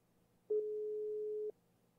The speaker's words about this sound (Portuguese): Será que ele vai atender? Tá chamando.